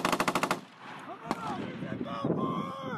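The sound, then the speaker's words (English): Automatic gunfire from U.S. 173rd Airborne paratroopers practicing their aim on a long shooting range at the Adaju training area in the Baltics: a loud, rapid burst of shots, followed a moment later by a single sharp crack. “First Sergeant Christopher Riley is among the U.S. paratroopers practicing their aim on a long shooting range at the Adaju training area, the largest in the Baltics.”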